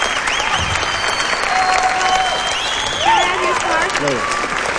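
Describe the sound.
Audience applause: a loud, sustained roar of clapping from a crowd, fairly even throughout, as a man speaks over it.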